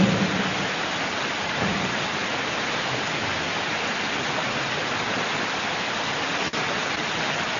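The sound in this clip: Steady rain falls as a dense, even hiss at a constant level for the whole stretch, with no clear voices above it.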